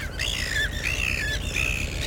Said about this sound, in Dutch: De ivoormeeuw, ja, dat is een hagelwitte meeuwensoort die alleen net rond de Poolcirkel voorkomt.